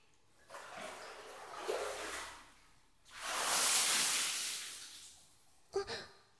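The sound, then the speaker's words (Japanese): Water is poured to rinse soap foam off a body in a bath. There are two long splashing pours, the second louder and fuller, then a short final splash. “それじゃ全身の泡を流しますね。”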